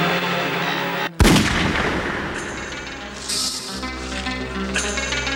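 Gunfire: a single sharp, loud shot-like blast cracks out about a second in, followed by a dense, continuous wash of noise.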